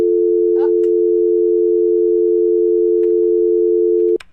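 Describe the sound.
A telephone tone sounds after a dropped call to a radio phone-in: one steady, mid-pitched tone continues unbroken for about four seconds, then cuts off abruptly.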